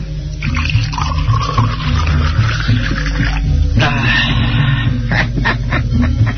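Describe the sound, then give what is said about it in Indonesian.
Liquid pours steadily as sweet palm wine is served as a drink, a continuous, fairly loud splashing trickle that runs without a break for the whole span. “Ayo tuangkan aku minuman.”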